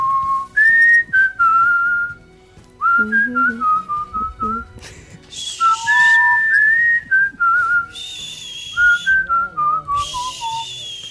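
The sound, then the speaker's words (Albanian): A person whistles a melodic tune alone, in a run of clear, high notes grouped into phrases with short pauses, some notes gliding up or down in pitch. “unë do bëj fishkëllimin”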